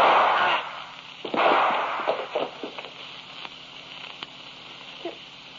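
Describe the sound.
A gunshot in an old radio drama, a loud blast followed by a second burst and a trail of fading crackles and pops.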